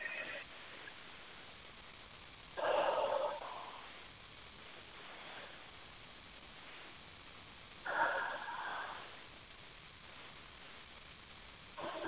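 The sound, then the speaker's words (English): Two slow, deep breaths, each a soft airy rush lasting about a second, spaced several seconds apart over a steady low hum. “Take some nice deep breaths.”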